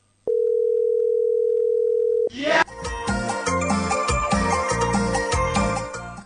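Telephone ringback on an unanswered call: one long, steady, loud tone holds for about two seconds, then stops as music starts up.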